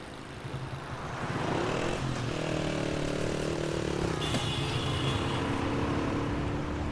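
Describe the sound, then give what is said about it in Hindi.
A car engine runs steadily at a loud, even level as the car pulls over to the roadside to stop behind a black car, with a brief higher whine partway through. “इसी जगह side पर रोक लो, इस काली गाड़ी के पीछे।”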